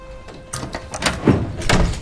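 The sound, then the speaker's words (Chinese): A door being opened, heard as a few short knocks and thuds of the door and its latch in quick succession, with no voices. “你把门打开说呗。”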